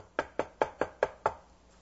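Knocking on a door: six sharp, evenly spaced raps in a quick steady rhythm, each with a short decay, and no voices.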